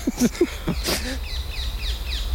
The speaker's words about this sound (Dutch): Terwijl de halsbandpakieten ons nu hier om de oren vliegen.